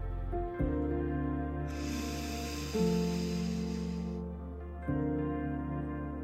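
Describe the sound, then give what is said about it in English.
Air drawn in through the right nostril while the left is held closed in a meditative breathing exercise, a soft steady hiss lasting a few seconds over sustained, droning tonal music. “put your index finger and close up your left nostril so that as you breathe into your right nostril, it will go right into your emotional center.”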